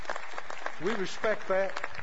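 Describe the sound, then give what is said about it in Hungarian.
Applause in a church for couples married many years: a steady, dense wash of clapping from a crowd, with voices audible over it, continuing through the whole moment. “Tapsoljuk meg őket.”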